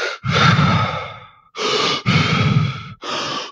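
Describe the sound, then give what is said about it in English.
Deep, rapid hyperventilation breaths from a person demonstrating a breathing exercise: a few forceful, airy breaths in and out in quick succession, loud and breathy with no talking. “Where you hyperventilate, which are not like panicky hyperventilations, but deep, rapid breaths. It would sound something like this.”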